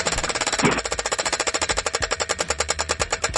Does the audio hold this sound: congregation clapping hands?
no